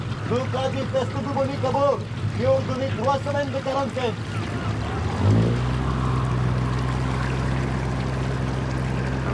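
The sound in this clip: A motor launch on water: a steady low engine drone starts partway through and holds at an even level, after a few seconds of murmuring voices.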